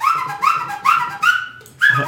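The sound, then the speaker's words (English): A person whistles five short sliding notes in a steady rhythm. Each note swoops upward and then holds, and the last one starts after a slightly longer pause. “This guy can whistle. He could go.”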